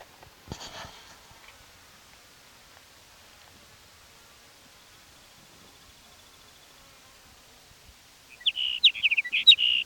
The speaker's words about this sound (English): sage sparrow number one for this new locality